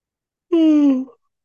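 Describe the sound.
A single voiced yawn from a person, a smooth, breathy tone that slides gently downward in pitch for about half a second before cutting off, alone in silence.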